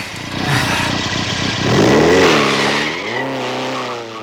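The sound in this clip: A car engine revs hard as the car pulls away at speed with a squeal of tires. The roar is loud and continuous, and the engine pitch swells and climbs toward the end.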